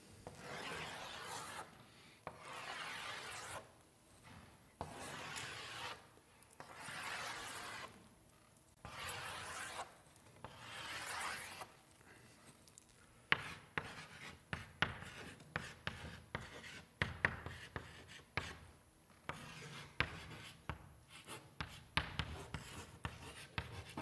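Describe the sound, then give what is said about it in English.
Three circles are drawn by hand, heard as a series of long, scratchy rubbing strokes of the pen that give way to quicker, choppier writing scratches. “I'm going to try to draw three really neat circles up here, but I'm not good at drawing circles.”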